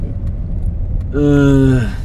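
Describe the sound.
A car driving gives a steady low rumble throughout, and a brief voice rises over it in the second half.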